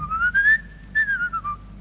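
Whistling from a crowd joining in with an Italian song: one bright, wavering melodic line that rises, holds a long note, breaks briefly, then glides back down over soft low accompaniment.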